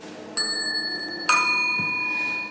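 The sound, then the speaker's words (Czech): A ding-dong style bicycle bell struck twice, each strike a bright metallic chime whose clear overtones ring on and slowly fade, with a soft low thump after the second strike. “a pak podle zvuku také zvonek, který se nazval ding-dong. Můžeme jednou, ding-dong.”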